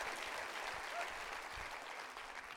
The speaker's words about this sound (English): Can you clap your hands right now and rejoice in that?